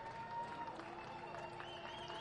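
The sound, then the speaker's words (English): Crowd noise builds in a baseball stadium at the Jack as the Blue Jays are down to their final strike, a steady broad roar and murmur that stays fairly even throughout. “As the crowd comes to life at the Jack.”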